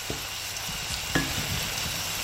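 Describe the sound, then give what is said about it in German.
Onions, ginger and chili sweat in hot oil for a chutney, giving a steady, even sizzle with occasional soft stirring scrapes in the pan. “Als erstes schwitzt sie Zwiebeln, Ingwer und Chili in Öl an.”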